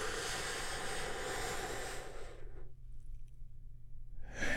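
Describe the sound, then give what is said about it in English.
A big, deep, healing breath drawn in for a guided relaxation moment: a long, loud, airy rush that fades to near quiet before a fresh burst of breath begins at the very end. “We get things started by taking a big, deep, healing breath all together.”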